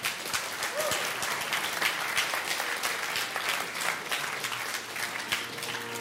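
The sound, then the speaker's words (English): A church audience claps for the choir members, giving sustained, even applause of many hands at moderate volume throughout. “I was going to say before you started clapping, thank you to all the choir members”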